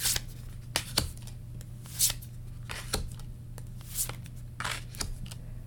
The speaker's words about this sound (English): I'm going to pull out three cards now.